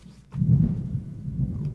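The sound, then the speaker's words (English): Thunder rumbles low and deep, starting after a brief quiet moment and rolling on steadily at moderate loudness for over a second. “We got our thunder. I told you that would happen.”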